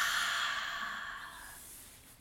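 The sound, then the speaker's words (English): A held deep breath is released as one long, airy exhale that starts fairly strong and fades steadily over about two seconds, heard alone with no talk. “So let's take a nice deep breath in and hold the air in your lungs and release.”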